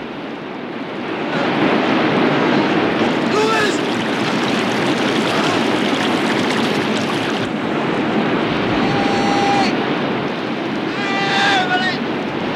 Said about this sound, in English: The half-submerged kayak drifts aimlessly downriver, Ed surrounded by debris. Bumped and buffeted, Lewis comes sliding down the waterfall at a frightening pace.